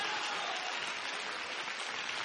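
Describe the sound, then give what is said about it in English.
A church audience clapping their hands during a service: a dense, steady wash of applause-like clapping with no voices, holding an even level from start to end. “Come on and clap your hands in here.”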